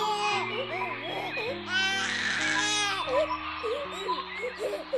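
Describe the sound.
A voice acts out the crying of a tired small boy who has fallen behind the other children. Wavering, sobbing wails repeat over music with steady low notes, and a louder burst of crying comes in the middle.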